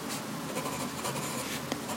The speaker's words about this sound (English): Who writes or who is now writing?